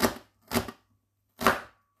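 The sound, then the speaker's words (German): A knife chopping a vegetable into small cubes on a board: three crisp, evenly spaced chops, with the start of a fourth at the very end, each a sharp thud with a short bright tail. “quer längs einschneiden, vom Strunk weg. Und dann quer dazu in kleine Würfelchen.”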